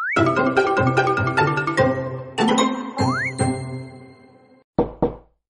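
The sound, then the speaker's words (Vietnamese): Knocking on a door: a steady run of repeated knocks mixed with ringing, tinkling tones and sliding pitches, the series pausing before two final knocks. “Mộ Dung Diễn tiếp tục gõ cửa”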